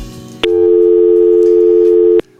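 A telephone tone sounds after a call-in listener's line dropped: one steady, loud, continuous tone lasting under two seconds that starts and stops abruptly over faint background.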